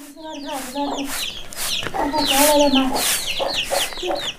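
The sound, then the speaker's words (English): Chickens cluck around a hut with a mud floor, producing many busy, overlapping clucks and squawks of varied pitch that keep up steadily at moderate loudness throughout. “sweeps a mud floor and chases chicks from a hut”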